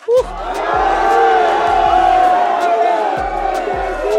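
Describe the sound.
Fulham club fans cheering and shouting as a crowd while they wait for the players on an inclusivity day, a dense, steady roar of many voices that swells early and holds loud throughout.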